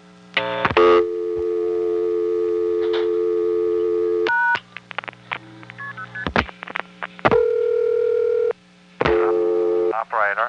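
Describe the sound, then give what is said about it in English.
A telephone dial tone holds steady, then the operator is dialed with a run of clicks and brief tones, followed by further steady line tones that stop and start. “Now I'm going to dial diamond, in other words, operator.”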